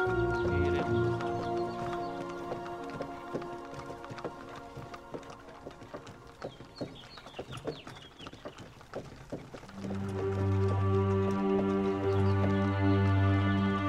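Hooves clip-clop as two horses, one grey, pull a cart, a steady patter of many quick hoof knocks running through the middle, carried under continuous music.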